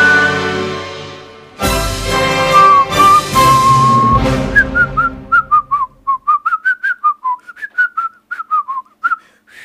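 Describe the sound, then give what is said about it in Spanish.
A person practicing whistling a tune: a clear, pure tone holds a long note over a louder backing, then breaks into a quick run of many short, staccato notes that rise and fall in pitch. “¿Me sale silbar? Te sale lindo. ¡Ay, qué suerte! Estoy practicando.”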